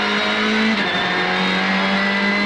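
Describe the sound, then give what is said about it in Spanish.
A rally car's engine roars at full throttle on a provincial rally stage, a loud, unbroken high-revving drone that holds a steady pitch for the whole clip. “Bien, nos metemos entonces el Ayto en el rally provincial de esta manera. 200. Cruce a fondo, 400 más.”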